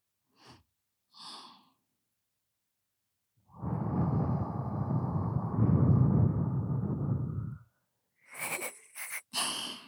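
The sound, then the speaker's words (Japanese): Soft blowing into the ear, heard as a long, steady, airy breath lasting several seconds. Shorter breathy puffs and hisses come before and after it. “私がお耳、ふうふうしてあげるから。”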